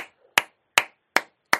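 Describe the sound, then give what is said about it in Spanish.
Four sharp, evenly spaced hand claps ring out in a studio, loud and isolated with short gaps between them and no talk. “Qué ovación en este momento desde el estudio.”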